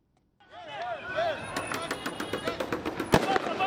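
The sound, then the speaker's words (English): Police fire tear gas outside an electoral commission building in Nairobi, Kenya, as protesters retreat. Many sharp bangs and pops come in an irregular series, with one especially loud crack near the end, mixed with shouting voices. “The sounds of police firing tear gas and protesters in retreat filled the air outside Kenya's Electoral Commission Tuesday”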